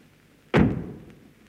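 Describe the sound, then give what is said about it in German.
A door is slammed shut with a single sudden, heavy thud whose short rumbling tail decays quickly into quiet. “Und die Tür hinter dir zugeschlagen.”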